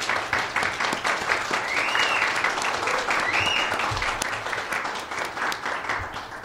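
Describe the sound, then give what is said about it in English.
A studio audience at a live show applauds steadily, with many hands clapping in a dense wash that stays loud and full before thinning slightly toward the end. “Our studio audience, we appreciate having you. Give yourself a hand.”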